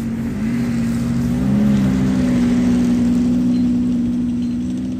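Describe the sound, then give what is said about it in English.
Engine drone of snowmobiles and all-terrain vehicles coming and going outside a large co-op store in Puvirnituq. It is a continuous low hum that swells slightly partway through, with no voices. “Outside the store, skidoos and all-terrain vehicles come and go.”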